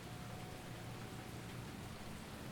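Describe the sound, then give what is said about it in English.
Rain falls in Ubud, Bali, as a faint, steady, even hiss that holds without a break and has no voices over it. “It's raining here in Ubud.”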